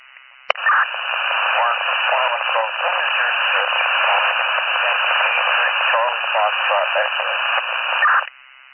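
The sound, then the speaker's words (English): Static-filled radio transmission: a sharp click, then a hissing, thin voice crackling through noise for about eight seconds before it cuts off. “You have to go again with that. Your radio is all static.”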